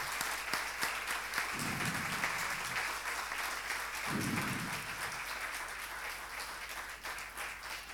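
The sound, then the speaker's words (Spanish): Applause at a wedding ceremony, a sustained, even wash of many hands clapping that holds steady throughout, with brief low crowd murmurs rising twice beneath it. “Le damos un fuerte aplauso.”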